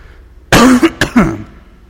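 A person clears their throat and coughs in two harsh, loud bursts in quick succession, the second slightly shorter. Quiet follows.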